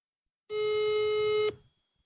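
A telephone ringing tone as an outgoing call is placed: one steady, buzzy, mid-pitched electronic tone that holds for about a second, then cuts off with a brief fading tail, heard alone.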